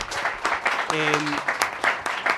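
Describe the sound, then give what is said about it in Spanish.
Audience applause for the columnists at a live debate event: dense, rhythmic clapping throughout, with a voice briefly cutting in partway through. “Ahora sí, por favor, antes de que les dé los resultados del debate, un aplauso a nuestros maravillosos columnistas.”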